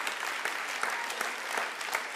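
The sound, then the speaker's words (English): Audience applause, a steady wash of many hands clapping at moderate volume, dense and even for the whole stretch with no pauses or cheering standing out. “If we're going to clap him, I think we should really clap him because he deserves it.”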